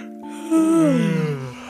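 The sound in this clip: A big, drawn-out yawn voiced by a person imitating a ladybug settling into bed. It is a breathy, voiced sound whose pitch slides downward over about a second.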